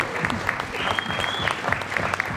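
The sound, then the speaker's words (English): A round of audience applause at a live event, many hands clapping in a fairly soft, steady patter with individual claps popping out here and there. “Give yourselves another round of applause. Thanks, everybody. Absolutely. But also as well, come on, a big round of big applause, round of applause for Matt”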